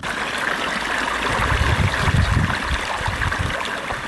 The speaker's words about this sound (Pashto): غلام حضرت د کوکنارو تازه کرل شوو کښتونو ته اوبه ورکوي